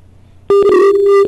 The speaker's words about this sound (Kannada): ಕಡಿತ ಉಂಟಾಗಿದೆ ಕರೆಯಲ್ಲಿ.